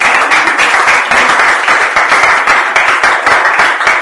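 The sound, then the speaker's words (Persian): An audience applauding at a lecture on self-confidence, with dense, loud clapping that holds steady throughout. “لطفا خودتون تشویق کنیم.”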